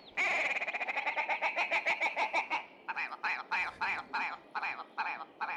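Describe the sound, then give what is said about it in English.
Willow grouse calling: a rapid, stuttering run of clipped nasal notes that slows into a series of separate, spaced cackles. “Oh, that's actually a willow grouse.”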